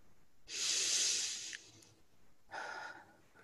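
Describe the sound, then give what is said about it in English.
A person taking a deep breath: a long, loud, airy hiss of inhalation. After a short pause comes a second, softer breathy sound. The sounds are heard alone, with no talking. “Take a breath.”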